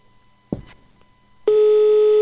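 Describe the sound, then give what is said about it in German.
Telephone ringback tone on a call being placed: a single brief click, a short pause, then a steady, low-pitched, unbroken tone that runs loudly to the end. “Wir hören ein Freizeichen.”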